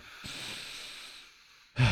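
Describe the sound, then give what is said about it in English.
A long, soft breath drawn in slowly as a person takes a deep breath, followed by a brief pause and then a sudden louder rush of breath at the end. “Let's relax. Let's take a deep breath.”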